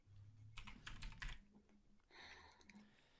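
Fingers type a message on a computer keyboard, producing quiet bursts of rapid key clicks in two clusters with a brief pause between them.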